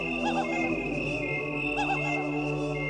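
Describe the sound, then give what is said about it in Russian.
Cicadas trill through a late-summer night in a town: a dense, steady chorus of buzzing, warbling trills layered over a continuous drone, with no voices. “как начнет небо поворачивать с лета на осень, город наш имеет обыкновение подвергаться истинному нашествию цикад.”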